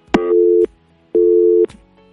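Telephone busy tone on an unanswered call to a mobile number: two steady, mid-pitched electronic tone pulses of about half a second each, separated by a matching gap, with faint clicks at each start and stop and no voices.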